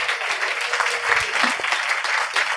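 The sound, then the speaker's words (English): Applause from a live audience welcoming a guest onto the stage at an evening show: dense, steady clapping that holds at an even level for the whole stretch, with faint voices mixed in. “Everybody, please give it up for Ned Bolting.”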